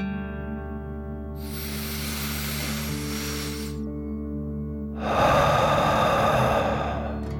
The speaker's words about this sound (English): Deep breath. In and out.